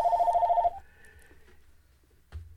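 An electronic telephone rings for an incoming call: a rapid, warbling trill that lasts under a second and then cuts off, leaving near-quiet with a faint tail and a short low thud at the end.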